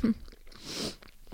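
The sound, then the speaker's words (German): Chewing on a piece of banana, with a few soft, moist bites and mouth sounds at moderate volume and no talking. “Vorher esse ich nochmal ein Stück Banane.”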